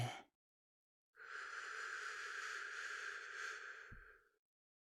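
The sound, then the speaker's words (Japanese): A slow, deep breath taken during a guided breathing exercise: one long, steady, airy rush of breath lasting about three seconds that fades out at the end, after a short sound at the very start. “また僕に合わせて深呼吸をしてください。いきますよ。ゆっくり吸って、”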